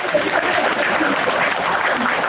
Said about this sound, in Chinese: 我 鼓掌，